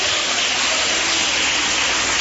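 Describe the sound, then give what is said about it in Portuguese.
Dense applause from a Pentecostal church audience at Igreja Pentecostal Deus é Amor, a steady unbroken wash of many clapping hands with no voices over it. “Quem tem essa paz pode bater mais palmas, dá glórias.”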